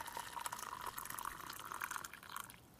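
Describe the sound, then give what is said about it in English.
Boiling water, rested for a couple of minutes, pours steadily over oolong tea leaves: a continuous, soft splashing trickle with a bright liquid hiss, fairly quiet, holding even for nearly three seconds before thinning at the end, with no voices. “So here is our oolong tea, and this is boiling water, rested for a couple of minutes”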